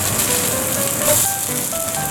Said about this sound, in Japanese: キャベツもうちょっと入れよう。よし、焼きそばを入れます。